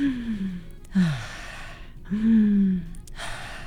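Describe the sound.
A person demonstrates very deep, long breaths for calming a craving to smoke: a few slow, drawn-out inhales and exhales, each an airy, breathy rush with a faint low voiced tone, fairly loud, with no talking.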